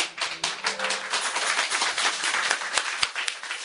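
Congregation clapping during a French-language church service after a Bible reading, a loose, irregular patter of hand claps with sharp individual slaps standing out from the softer mass.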